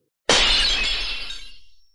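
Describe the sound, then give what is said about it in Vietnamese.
A round, gold-coloured glass mirror shatters in one sudden, bright crash, and high glassy shards ring and tinkle as they fade over about a second and a half. “Chỉ nghe một tiếng vang lên thanh thúy, kính tròn vỡ vụn ra, mất hết linh quang mà rơi xuống đất.”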